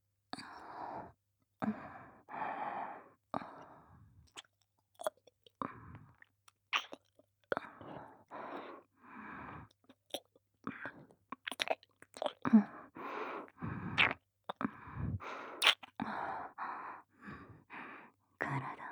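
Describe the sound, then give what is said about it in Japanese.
Wet mouth sounds from licking an ear come in many short, close bursts of smacking and slurping, broken up by quiet pauses and soft breaths. “ではこっちのお耳も舐めさせていただきますね。”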